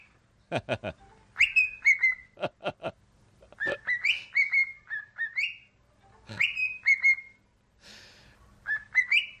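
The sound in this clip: A parrot whistles the Real Madrid anthem in clear, high, melodic phrases repeated several times, with a few short sharp calls at the start and brief gaps between phrases, alone and fairly loud.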